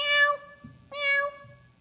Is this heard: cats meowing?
yes